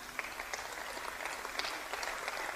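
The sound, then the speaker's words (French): A church audience applauds, a soft continuous patter of many hands clapping, steady and fairly faint throughout. “Est-ce qu'on peut acclamer pour les sœurs en Christ qui sont là jusqu'au dernier jour?”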